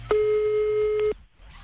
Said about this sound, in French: Allez, c'est parti, on y va, on l'appelle.